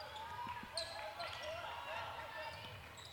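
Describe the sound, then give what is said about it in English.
A basketball is dribbled on a court, a few faint, soft bounces over a steady background hum. “Back up top with that dribble.”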